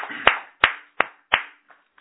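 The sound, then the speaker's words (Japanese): Hand claps celebrating a religious leader's 58th birthday: four sharp, evenly spaced claps, then two much fainter ones, with no talk. “今日は教主金光様、金光博道先生が満58歳を迎えられましたので、盛大な拍手でお祝いをして、”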